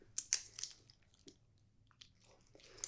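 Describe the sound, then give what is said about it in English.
Crunchy bites and chewing on a chocolate candy bar: a few sharp, crisp crunches early on, then softer, scattered chewing and a final crackle, all fairly quiet with no talk. “Okay, let me try it. What is this, a Milky Way?”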